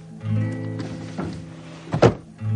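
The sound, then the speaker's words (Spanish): A farmer opens a wooden dresser drawer, a short sliding thunk near the end set against sustained tonal music. “el granjero abre el cajón de una cómoda”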